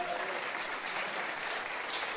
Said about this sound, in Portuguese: Agora ele já falou uma salva de palmas pro Nino Miau.